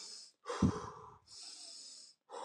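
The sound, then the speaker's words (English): Breaths are drawn in through the nose and pushed out through the mouth as a slow-paced demonstration for a guided breathing exercise. A few soft, airy rushes of breath are separated by short silent pauses. “we'll do an inhale nose and then an exhale mouth for the first minute. Let me just do two. It will sound like this.”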